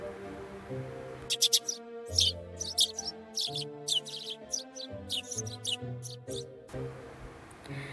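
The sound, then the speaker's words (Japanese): Bird chirps and tweets in a morning forest around a cafe: bright, quick calls in short bursts over sustained, steady tones. “朝の森、カフェの周りに鳥の声、葉っぱの揺れる音、静かな始まり。”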